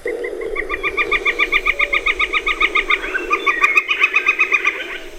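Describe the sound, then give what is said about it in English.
A flicker woodpecker gives its wicca wicca territorial call: a long, steady series of many quick, bright, evenly spaced notes. A second, slightly different run of notes overlaps it in the later part. “That's the wicca wicca call. That's one of their territorial calls,”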